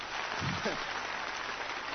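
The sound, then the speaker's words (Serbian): Applause from an audience at a live performance of romance songs, a faint, steady, even patter of many hands with a voice briefly over it. “Jedan aplauz.”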